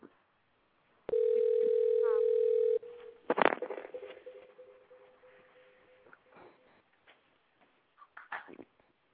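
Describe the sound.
A telephone dials a house phone, opening with a loud, steady dial tone for about two seconds. A sharp burst of clicks follows, then a fainter lingering tone and scattered quiet ticks.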